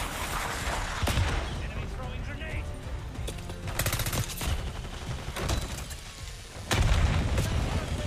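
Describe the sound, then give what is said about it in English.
Explosive blasts and rapid gunfire from a video game battle with an RPG rocket incoming, several sharp bangs through continuous shooting, ending in a heavy, louder boom. “Snipers up on the ridge. And an RPG. RPG incoming.”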